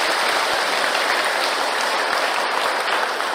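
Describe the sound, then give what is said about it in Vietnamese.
Steady applause from an audience at a Buddhist dharma talk, dense, even clapping that fills the whole stretch without a break or any talk over it. “chúng ta cho một tràng pháo tay cho bạn Kỳ.”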